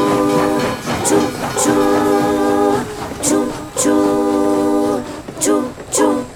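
Train running and arriving at a station: several loud, chord-like horn blasts of varying length, marked by sharp high clicks, over a continuous rumbling clatter.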